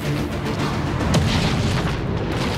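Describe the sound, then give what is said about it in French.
A power plant explodes in a film: a loud, sustained, deep rumbling roar throughout, with a sharper burst flaring near the middle. “Ta centrale va exploser, papa.”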